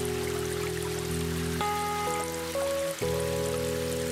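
Rain falls as a steady, even hiss beneath sustained, slowly shifting synth chords. The chords dominate, and the rain stays as a continuous textured wash throughout.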